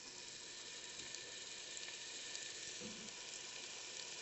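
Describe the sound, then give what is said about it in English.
Carrots sautéing in olive oil give a faint, steady sizzling hiss that stays even throughout, with no voices. “Do you want to use that to saute? We're going to be sauteing the carrots first.”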